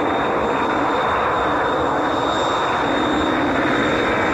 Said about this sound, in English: Trajectory looks good. The MA6 vehicle is off the launch pad.